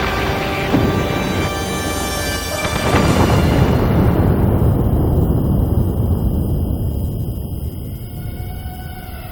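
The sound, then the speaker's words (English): A missile strikes an office with a heavy explosion. Sustained tonal sounds come first, then a loud, broad blast that trails off into a long, rumbling decay. “A missile directly hits his office.”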